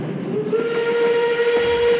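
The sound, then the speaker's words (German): Train arriving as a sound effect: a steady rumbling roll with a sustained, bright whistle tone held through most of the two seconds, fairly loud and with no voices. “Der Explain Train fährt ein. Nächster Halt.”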